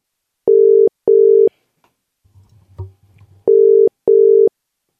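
Telephone ringing tone heard while placing a call: steady electronic beeps in two pairs, four in all, separated by a short gap that holds a faint rustle and a soft thump.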